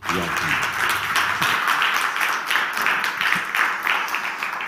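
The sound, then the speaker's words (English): Applause from a church audience welcoming a guest speaker to the front, a dense, steady wash of many hands clapping that holds at an even loudness throughout. “let's put our hands together to give Paul a warm Hope Ottawa”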